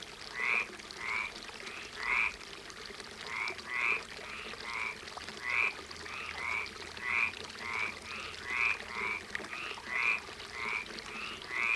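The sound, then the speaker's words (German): Frogs croaking from a water basin in fields on a summer evening, with many short, bright, chirping croaks trading back and forth in an irregular, steady chorus. “ein Wasserbecken und Frösche, die aber nur einen kurzen Dialog halten.”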